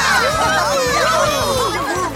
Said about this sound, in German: Alle jubelten um die Wette.